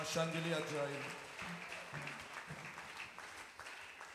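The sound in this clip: Faint applause from a church audience praising the Lord after a birth announcement at an Easter service. A soft, steady patter of clapping runs under a voice heard at the start.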